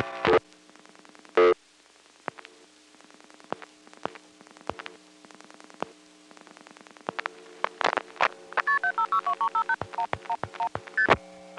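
Telephone dialing of an 11-digit long-distance number on a line that is pulse-dialed while the hook is flashed. Sparse sharp clicks and short bursts sit over a steady low hum, then a fast run of many short tones comes near the end.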